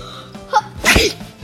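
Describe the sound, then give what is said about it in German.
A single sharp human sneeze: a few small breathy sounds build up, then one loud explosive burst, followed by quieter trailing noise. “ich hab gerade voll den Niesen hier”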